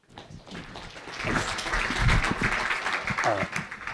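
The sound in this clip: Audience applause welcoming a speaker at a talk: many hands clapping, swelling from a soft start to a steady, dense patter that holds to the end.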